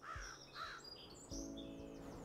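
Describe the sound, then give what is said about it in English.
Crows caw in leafless oak trees in a cemetery on a cold, windy late-fall day. A few faint, harsh calls come in short bursts. “Soon the crows in the oak trees that had lost their leaves started cawing, and the wind picked up.”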